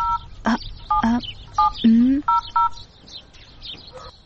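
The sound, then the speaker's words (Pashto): Someone dials a telephone number, and the keypad beeps in short two-tone bursts in an uneven sequence, mixed with brief chirping squeaks. “ته صبر چې اوس فاطمې ته زنګ ووهم”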